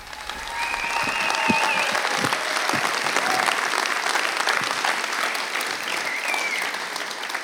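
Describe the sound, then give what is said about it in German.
Welcome applause at a church stage event in Munich as a speaker comes on, clapping that swells in the first second and then holds as a full, sustained wash of hands from the crowd. “lasst uns Friedhelm mit einem warmen, genialen Willkommensapplaus begrüßen auf unserer Bühne.”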